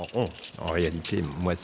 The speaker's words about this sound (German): Jetzt passen einige Schlüssel für ganze Zonen, aber ich habe auch noch historische Schlüssel.